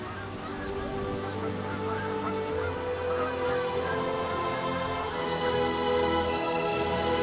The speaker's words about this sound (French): Il est clair que les oiseaux profitent également de ce festin.